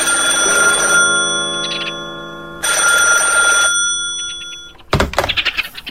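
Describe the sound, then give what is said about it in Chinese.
A telephone bell rings at home in the evening in two long, loud, steady bursts separated by a short pause, followed by a brief clatter at the end. “这时电话铃响”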